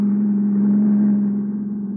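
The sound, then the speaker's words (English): Car engine driving past, a steady low droning hum holding constant before easing slightly and turning a little uneven near the end, with no voices. “He drove right past us.”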